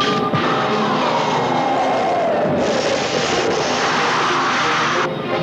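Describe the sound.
An aircraft coming in to land makes a loud, continuous roar that stays steady throughout, with a whining tone gliding slowly downward in pitch over the dense rumble.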